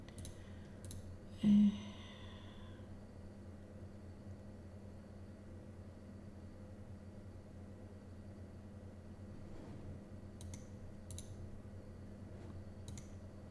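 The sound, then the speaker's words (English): Computer mouse clicks while browsing a photo library: faint, sparse clicks, with a few early on, then a long quiet stretch, then a few more near the end, over a low steady hum. “I know this is probably not riveting, hearing me click through Google Photos.”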